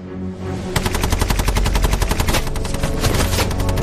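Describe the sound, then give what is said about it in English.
A Bren light machine gun fires one long sweeping burst at a hedge line. Rapid, evenly spaced shots crack loudly and continuously for about three seconds after a brief quiet start. “He places his last Bren gun in an upper window overlooking the position. Lonsdale signals the gunner to sweep the hedge line which conceals the German soldiers.”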